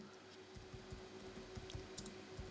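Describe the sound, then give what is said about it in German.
Computer keyboard typing while a name is searched: an irregular run of light, crisp key clicks over a steady background hum. “während ich hier reintippe und suche”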